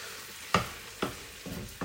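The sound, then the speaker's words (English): Prawns cooking in a little liquid in a pan with black pepper: a faint, quiet sizzle broken by a few sharp stirring scrapes. “There's a little bit of liquid in the pan, which is what's cooking the prawns, which have turned a nice pink colour now.”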